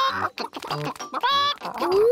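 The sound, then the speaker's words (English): Cartoon chickens cluck and squawk in quick, choppy bursts as they are fed corn, with a tone sliding upward near the end. “Here you are, chickens. Eat up.”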